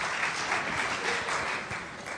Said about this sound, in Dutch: Laten we eens een applaus geven.